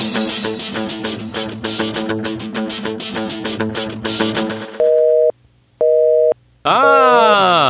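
Telephone dialing and ringing tones: a loud, rapid run of electronic dial pulses, then two long steady beeps separated by silence, ending in a loud warbling tone. No voices.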